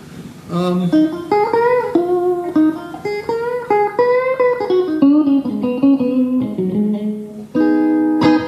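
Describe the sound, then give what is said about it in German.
Music playing through four 10-inch loudspeakers: a melodic line of distinct notes with rich harmonics, moving up and down in pitch, played loud and steady with short gaps and no voices. “Das, was ihr jetzt hört, sind 4 10 Zoll Lautsprecher.”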